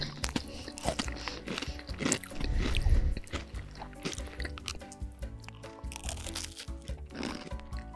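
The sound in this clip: Crunching of sugared banana crisps being eaten, many crisp bites and chewing crackles at an irregular pace, fairly faint, with a denser burst of crunching partway through.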